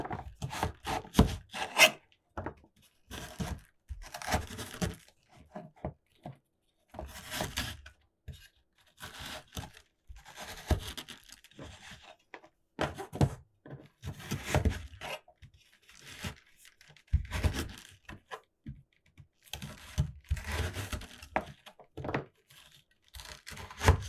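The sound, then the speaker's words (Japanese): A knife cuts carrots into thin strips in a long run of irregular chopping and scraping strokes, busy and uneven in rhythm, with no one speaking. “人参も細長く切ってから。”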